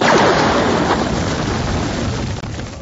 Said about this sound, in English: That was when the blaster bolt tore down from above, ripping a hole in the wall.